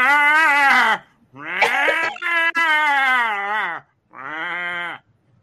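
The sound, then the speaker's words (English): Sheepsquatch creature call, a sheep-like bleat: a few loud, long, wavering bleating cries with a quavering voice-like tone, separated by short silences. “I think that's what is a sheep squatch? What sound do they make?”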